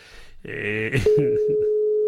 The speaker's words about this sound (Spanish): No me coge el teléfono ahora, cago en la mar.